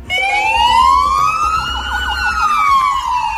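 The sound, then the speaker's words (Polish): A police car siren wails steadily and loudly at noon outside a police headquarters, sounded with other alarm sirens as a tribute to an officer killed on duty. Its pitch sweeps slowly upward, then falls back in one long continuous cycle. “W południe mundurowi wyszli przed komendy i włączyli syreny alarmowe oraz sygnały w swoich radiowozach.”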